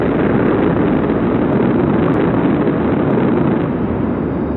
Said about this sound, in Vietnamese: Lúc này chợt có tiếng gió ào ào nổi lên, ầm vang như sấm giật.